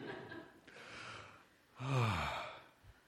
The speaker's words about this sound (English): just to pause and take a deep breath. Let's do that again.